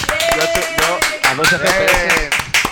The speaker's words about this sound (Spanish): Un aplauso a todos, por favor, para Joan Manel.